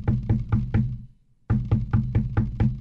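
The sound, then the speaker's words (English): Knocking on a surface to imitate a knock at a door: a quick run of four sharp, solid knocks, a short silent gap, then a longer run of knocks at the same steady pace. “not a knock on the door. I just thought I'd do that.”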